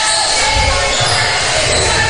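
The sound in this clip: A basketball dribbled on court in the closing seconds of a third quarter, with repeated ball bounces under steady crowd noise.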